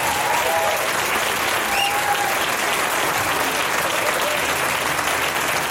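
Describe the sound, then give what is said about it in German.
Crowd applause for a performer at a live talent showcase: thick, continuous clapping at a steady loud level throughout, with a couple of faint whistles poking through early on. “Das ist dein Applaus, Linda Ellis!”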